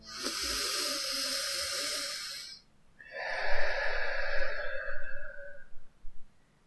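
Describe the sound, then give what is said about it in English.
A person takes a deep breath in through the nose, a long airy hiss, then pauses briefly and releases a slower, softer breath out through the mouth, with a couple of short breathy puffs at the end. “I want you to begin by taking a deep healing breath in through your nose and out through your mouth.”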